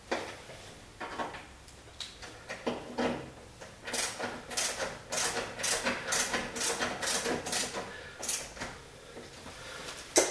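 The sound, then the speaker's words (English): Screws are tightened down in a rapid series of many faint clicking, ratcheting bursts with irregular spacing. “Then we'll go ahead and put the other one in the bottom hole. And we'll tighten them down.”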